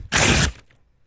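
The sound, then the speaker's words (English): Paper is ripped right into a microphone: a single loud, harsh tearing burst lasting about half a second, then quickly dying away. “somebody was going to rip a paper up into a microphone”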